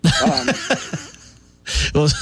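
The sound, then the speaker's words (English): Someone coughs after choking on Cheerios cereal. Talk comes first, then a couple of loud, harsh bursts near the end. “excuse me, choked on some cereal.”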